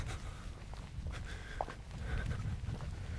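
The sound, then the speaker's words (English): Soft footsteps walking through a wheat field in a breeze, muffled crunching steps over a steady low wash of wind noise. “Walking through the wheat field at the beginning of the walk at the moment. There's a reasonable breeze”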